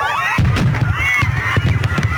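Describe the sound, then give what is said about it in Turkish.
Fireworks going off during a traditional fireworks show in Spain, with rockets veering into the crowd: a few sharp, heavy bangs over a constant rumble, mixed with people shouting and screaming. “İspanya'da düzenlenen geleneksel havai fişek gösterisi bu yıl kaosa yol açtı.”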